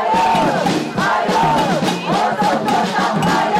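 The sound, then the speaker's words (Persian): A crowd of demonstrators in Tel Aviv calls for hostage negotiations. Loud massed voices shout and whoop continuously, with a couple of brief dips in volume. “شب عده‌ای از شهروندان اسرائیلی در تل آویو طی تظاهراتی خواستار شدت گرفتن مذاکرات دولت با گروه افراطی حماس برای آزادی گروگان‌های باقی مانده در دست این گروه شدند.”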